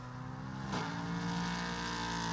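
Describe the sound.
A race car's engine drones steadily as it turns into a wide corner during a 2018 sports car race, its pitch dipping and shifting mid-turn. The sound is faint and alone.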